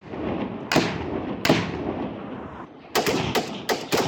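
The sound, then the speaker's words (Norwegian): Gunfire from Afghan government soldiers on patrol, shooting toward a slope from cover behind armored vehicles: sharp shots, two spaced apart and then a quicker cluster near the end, over a steady rumbling background. “Dette er afghanske regjeringssoldater på patrulje. De skyter mot noen i en skråning.”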